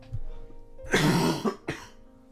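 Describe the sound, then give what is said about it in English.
Heavy, harsh cough: a long rough burst followed a moment later by a shorter one, loud against a quiet background with a low steady hum. “that cough's heavy, yeah.”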